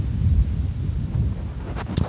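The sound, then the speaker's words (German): Wind buffets a microphone outdoors, making a low, uneven rumble of moderate loudness. A couple of brief bursts come near the end. “Oh, ist jetzt aber gerade ein bisschen windig, oder?”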